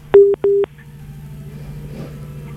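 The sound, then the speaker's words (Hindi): Telephone line tones as a caller's phone call connects: two short, loud electronic beeps in quick succession, then a low steady hum with faint line noise. “देख लेते हैं phone call पर कौन इंतजार कर रहा है।”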